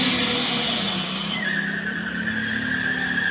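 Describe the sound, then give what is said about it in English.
Tires of a car that has crashed into a lobby keep spinning, giving a continuous, loud, grinding whine. Partway through, a sharper, steady squealing tone joins it. “Literally a car driving into a lobby, and it's just continued. The tires are still spinning.”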